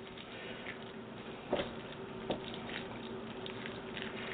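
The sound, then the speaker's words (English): Macaroni and cheese being stirred in a pot: a faint, steady wet churning with two brief, louder squelches partway through. “I'm going to have to stir a little bit first. And if your macaroni and cheese doesn't sound like that when you're stirring it, you're doing it wrong.”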